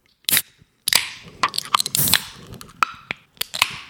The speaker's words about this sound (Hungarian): És ez elvileg kofola limonádé. Hát de minden kofola limonádé, nem? Elképzelni nem tudom. Szóval, hogy én ezt most itt ünnepélyesen kinyitom.